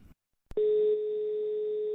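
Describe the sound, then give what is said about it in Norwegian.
A telephone line tone sounds while a call is being placed: a sharp click, then a steady single-pitched tone that holds unbroken to the end, loud and alone. “Kanskje vi skal ringe han? Vi gjør det.”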